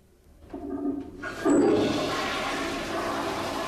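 A toilet flushes: a gurgling rush of water builds, surges loudly, then settles into a steady churning swirl that continues to the end.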